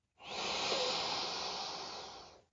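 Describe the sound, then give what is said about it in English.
A deep breath drawn in through the nose: one long, steady, airy inhale lasting about two seconds, rising in quickly and fading at the end, with no talking. “take a deep breath in through your nose. And as you do that, you will feel your belly rise. Ready? Let's do this together.”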